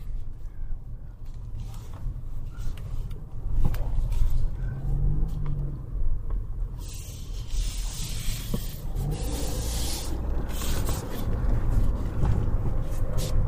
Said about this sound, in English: Sorry about that. And had to do some driving stuff here.